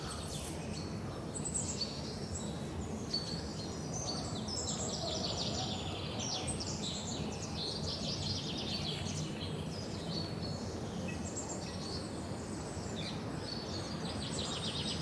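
Birds sing in the Vliegenbos woodland, a constant mix of many overlapping high chirps and trills. The song stays faint and even throughout over a broad background hiss.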